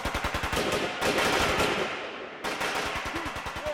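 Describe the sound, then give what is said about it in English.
Rapid automatic gunfire with dummy ammunition during a military mock-ambush exercise: loud, continuous bursts of fast cracks that barely pause throughout. “Then they checked out dummy ammunition and headed out in a mock ambush. They opened fire as they were supposed to.”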